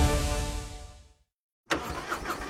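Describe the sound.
A Harley-Davidson motorcycle engine roars loudly and then fades away into a short silence. A second burst of engine noise then cuts in sharply and keeps going, rough and throaty.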